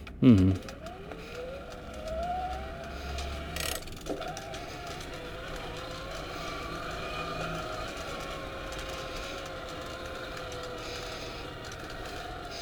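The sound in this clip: A car drives off, its engine a steady low drone that runs the whole way through. A rising tone comes early, and a brief knock sounds partway through.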